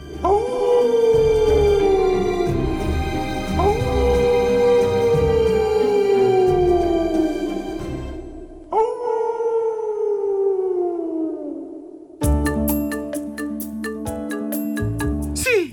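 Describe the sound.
A dog howls at the moon in three long, loud, sustained howls, each sliding downward in pitch, against steady musical tones that continue alone after the last howl.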